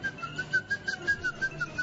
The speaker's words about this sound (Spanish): Él está silbando las noticias en código Morse.